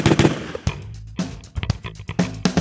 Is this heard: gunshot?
yes